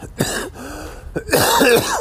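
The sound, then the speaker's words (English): A person coughs a few times in harsh, raspy bursts. The cough came from dirt and dust picked up during a 100-mile run. “Got this cough from all dirt and whatnot.”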